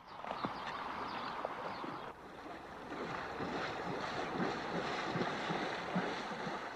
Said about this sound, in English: Douglas carries on over the border into Mexico and steers his horse through deep water.